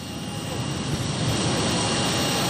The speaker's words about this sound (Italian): Ed ecco il rumore dei motori inconfondibile che ci offre la regia con Daniele Giorgio